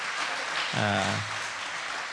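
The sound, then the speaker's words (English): A church audience claps their hands in praise: steady, dense clapping with a brief voice calling out over it. “Then we want to give one more hand clap of praise to our Lord and Savior.”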